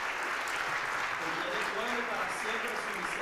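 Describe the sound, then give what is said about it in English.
Church audience applause: dense, steady clapping that holds at an even level for a few seconds, with voices mixed in. “I want to thank the pastors and the brothers and sisters who've been here from the beginning. And they deserve an applause.”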